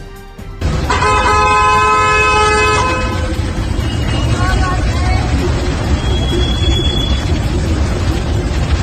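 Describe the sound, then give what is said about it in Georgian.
Car horns blare amid shouting at a street interview, opening with one long, loud horn blast of about two seconds, then a steady din of crowd shouts and babble that carries on throughout. “ინტერვიუს მიცემა შეძახილებისა და ავტომობილების სიგნალების ფონზე მოუხდა”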